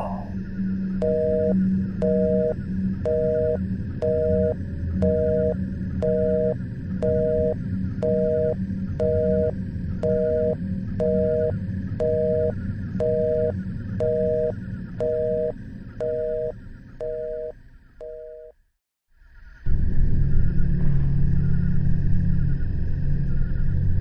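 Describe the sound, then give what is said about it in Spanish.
A telephone busy tone sounds as a call disconnects: many short, even beeps repeat in a steady rhythm over a low rumble. The beeps then cut off abruptly, followed by a louder low rumble. “y en ese momento, la llamada se desconectó.”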